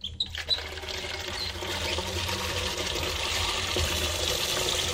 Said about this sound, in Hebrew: רק עוד לפתוח את המים באמבטיה, ככה, שיש שיטפון.